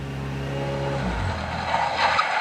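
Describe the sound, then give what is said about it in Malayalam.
A car pulls up and stops, its low engine tone dropping in pitch and fading before cutting off near the end, leaving a brief hiss. “ഇവിടെ കടയൊന്നുമില്ലല്ലോ, പിന്നെന്താ car നിർത്തിയേ?”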